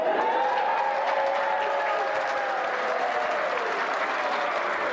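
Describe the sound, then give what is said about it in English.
Crowd clapping and cheering at a kapa haka event for a school group, a dense, continuous roar of applause that stays level and loud from start to finish. “Now, when they call out the participation, you make sure it's the loudest cheer.”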